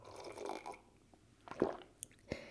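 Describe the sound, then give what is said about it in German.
A sip of tea taken by someone with a slight cold: a brief wet slurping burst, then a couple of small clicks, quiet and with no talk. “So, jetzt nehme ich einen Schluck Tee, weil ich ein bisschen erkältet bin.”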